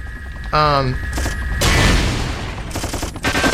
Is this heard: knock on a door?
no